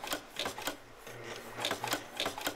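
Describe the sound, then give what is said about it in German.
Nailing machine fastening cover plates onto the reed plates and comb of Marine Band 1896 harmonicas, heard as a quick, uneven run of sharp mechanical taps and clacks over a low, steady machine hum. “Auf die Stimmplatten mit dem Kanzellenkörper werden die Deckel vom Anfang genagelt.”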